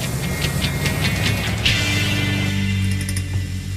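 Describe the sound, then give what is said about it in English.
A car driving away, heard as a sustained engine rumble with a mechanical hum whose character changes partway through. “Bix drives away.”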